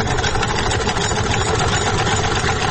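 Steady mechanical whirring and rattling from a sewing machine with a turning wheel, used by a women's clothing tailor in Parun, Nuristan, runs loud and continuous throughout, with no talk.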